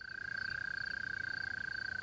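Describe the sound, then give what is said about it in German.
A mole cricket chirps at dusk on a moor, a continuous high-pitched trill with a rapid, even pulse, steady and fairly faint throughout. “Die Maulwurfsgrille etwa beschallt gerade eine ganze Fläche mit rhythmischem Zirpen. Und der Laubfrosch quakt zur Brautschau.”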